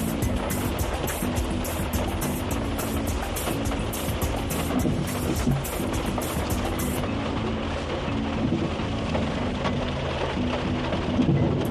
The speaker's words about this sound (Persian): عزیزانو داسې شدید باران دی کله ډېر زیات شي کله کم شي